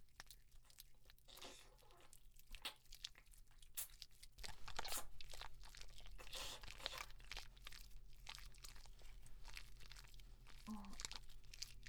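Someone chews a crunchy, salty food with a faint sweetness. Many quiet, irregular crisp crunches and crackles follow one another steadily throughout, with no talk.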